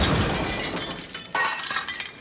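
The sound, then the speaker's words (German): Glass shatters loudly as a television set is thrown out of a window and breaks. A bright crash at the start thins into scattered tinkling and clattering debris, with another sharp burst partway through. “Ich reiße die Kabel aus der Wand, nehme den Fernseher auf die Schulter und werfe ihn aus dem Fenster.”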